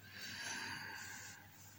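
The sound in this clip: A slow breath during a guided breathing exercise: one soft, airy rush of air swells and then eases off over under two seconds, quiet and unaccompanied.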